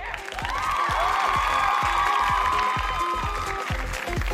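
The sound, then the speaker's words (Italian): Crowd applause with cheering, a dense and steady roar of clapping that holds loud for the whole stretch, with whistle-like tones and whoops riding above it. “un applauso al ministro al tesoro americano Jacob Liu”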